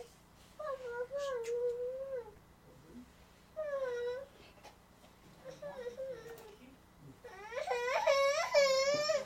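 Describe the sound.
A baby, fussy and a little unwell, cries during a church gathering: several bursts of whimpering, wavering cries with pauses between them. The final cry is the longest, loudest and highest.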